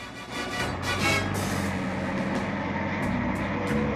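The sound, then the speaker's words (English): A car drives off down the road with a steady engine rumble as it pulls away, and a few short hissing bursts come near the end. “The driver leans over and shoots him. The policeman falls backwards to the ground and the man casually drives off.”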